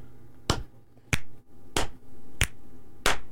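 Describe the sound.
Finger snaps used as a rhythm sample for a snap-track style pop beat: five crisp, sharp snaps in a steady, even pulse, each a bright dry crack with nothing else sounding between them.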